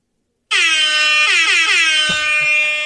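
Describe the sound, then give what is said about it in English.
A reggae-style air horn used as an announcement sound effect blasts in suddenly and holds. It is a loud, brassy, continuous blare whose pitch dips and wavers in repeated pulses until the end. “This is going to be our announcement. Our announcement sound. All right, you ready? You have an announcement sound. We have to program this into this is the announcement sound when we have a big announcement.”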